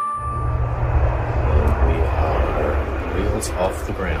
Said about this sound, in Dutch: Zo klonk het gisteravond rond 11:15. Het moest een historisch moment worden. De eerste satellietlancering ooit in het Verenigd Koninkrijk en bij uitbreiding in West-Europa.